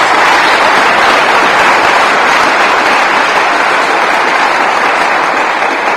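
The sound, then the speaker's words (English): An audience applauds the people involved in a new library: dense, steady clapping at a loud, even level for the whole stretch, with no voices standing out. “Can we have a big hand for the people who've been involved in that?”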